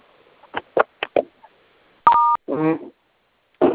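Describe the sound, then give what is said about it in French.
A telephone keypad gives one clear, steady dual-pitched beep as a number is dialled, with brief bits of speech before and after it. “Vous allez composer étoile”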